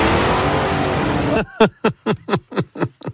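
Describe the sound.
A petrol-engine car running: a loud, dense, sustained engine roar, then a rapid series of short, punchy revving bursts, each dropping in pitch, repeating until the end.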